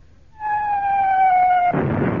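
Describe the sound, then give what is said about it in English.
A naval fleet fires on towed target ships: a shell's steady whistle sinks slightly in pitch before ending in a loud, broad blast. “You're towing the target ships and the fleet have found them and are firing on you!”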